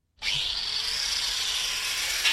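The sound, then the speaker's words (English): A worker hand-drilling parts for a custom-made electric motor at an electric motor works in Berlin: a steady, hissing, high-pitched grinding whir that runs unbroken for about two seconds, slightly louder at the very end. “At the Menzel Electric Motor Works in Berlin, a worker hand drills parts that will go into a custom-made electric motor”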